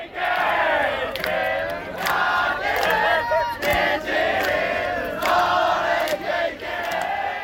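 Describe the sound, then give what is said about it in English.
Hanshin Tigers fans chant and roar together on Ebisubashi Bridge in Dotonbori, Osaka, celebrating their baseball team's victory. The dense, loud crowd noise rises and falls in waves. “So that was the sound of Honshin Tigers fans celebrating their team's victory on the famed Ebisubashi Bridge in Dotonbori on Sunday.”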